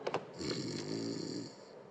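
Someone snores while asleep on a sofa after a day of eating and drinking at home. Two short snorts are followed by one long, rasping snore that fades gently.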